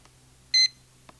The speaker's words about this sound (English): You can lock the radio if you're carrying it in a suitcase or purse so that it won't turn on and run your batteries down. When I turn the lock on, it beeps like this.